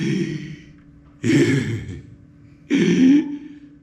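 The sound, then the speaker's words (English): A voice imitates the labored breathing of a man with last-stage emphysema: a few heavy, rasping, wheezy breaths in separate bursts, each harsh and breathy with a throaty low rattle, and no words. “He had, last stage emphysema, or I don't know what exactly was wrong with him. But his breathing was so labored, it was unbelievable. He would breathe and he'd go,”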